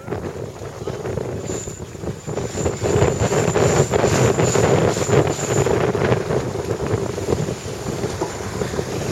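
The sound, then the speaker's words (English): Loud rushing water and wind noise from a foiling sailing boat under way in about 7 knots of breeze. The noise from its foils swells in the first few seconds after a headsail is unfurled, with a steady high whine above the broad roar. “You can hear the noise from the foils immediately goes up.”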